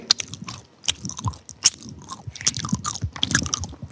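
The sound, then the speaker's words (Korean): Close-up chewing of a chewy dried sweet potato snack: many moist, irregular bites and squishy chews with small crunchy clicks, alone and without talk. “제가 마이크를 대고 한번 먹는 소리를 들려드릴게요.”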